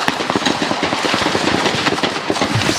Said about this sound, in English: when out of nowhere, a drive-by shooting across the street.